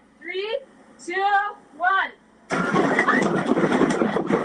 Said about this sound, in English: that's the shake trailer here in the Civic Center Plaza, giving people who weren't here in 1989 a taste of what being on top of the epicenter may have been like